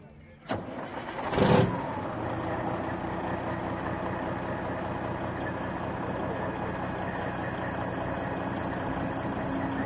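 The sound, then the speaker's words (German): A classic Kenworth truck from the USA, 500 hp with a 12.7-litre engine, starts with a short sharp crank, then a loud rising burst as it fires, and settles into a steady rumbling idle. “Was haben wir denn jetzt hier hinter uns stehen? Das ist ein Kenworth aus den USA, hat 500 PS. 12,7 Liter und Oldtimer,”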